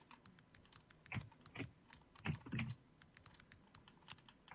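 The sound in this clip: Fingers type on a computer keyboard in a quick, irregular patter of faint key clicks, with several louder keystrokes standing out among the softer taps and no voices.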